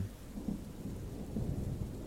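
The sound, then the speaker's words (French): Rain with deep rolling thunder outdoors among thickets: a soft, continuous wash of rainfall over low rumbling swells, faint overall, with no voices. “Heureusement qu'il pleut, ça va te nettoyer.”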